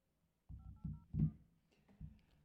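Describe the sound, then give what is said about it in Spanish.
Telephone keypad tones sound as someone dials a number to call back: a few short, faint beeps in quick succession, mixed with soft low thuds. “el teléfono para marcarle de vuelta. Y vamos a ver si, si me contesta.”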